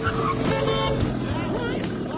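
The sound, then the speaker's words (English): A car approaches along a street with a steady, loud engine and tire rumble, a broad noisy roar that holds throughout. “crosses the road in front of an approaching car.”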